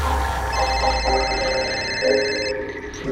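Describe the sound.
A telephone ringing with a thin, high electronic tone that holds for about two seconds over a noisy background, then cuts off.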